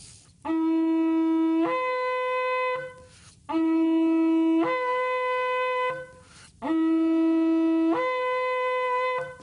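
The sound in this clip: Shofar shavarim blasts for Yom Teruah sound as three medium-length wailing horn tones with brief gaps between them. Each loud, steady note begins low and then jumps up to a higher pitch.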